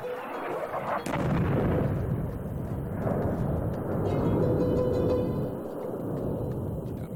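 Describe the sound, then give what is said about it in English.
Heavy bombardment explosions from airstrikes: a sharp blast near the start, then a sustained low, rumbling roar of distant-sounding detonations that stays loud throughout, with no voices. “After a short ceasefire, Saudi Arabia resumed its heavy airstrikes.”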